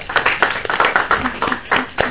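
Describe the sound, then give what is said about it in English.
Hand clapping from the audience at a committee meeting to congratulate a minister: a quick run of many sharp, fairly loud claps over about two seconds, with no talk over them. “A round hands of applause will really encourage them.”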